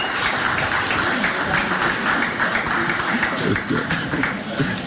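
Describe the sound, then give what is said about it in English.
A crowd of constituents applauds to welcome their minister, with dense, continuous clapping and some voices mixed in. “So I'm going to invite our minister to come and greet his constituents. You know, so please put your hands together and make him feel welcome.”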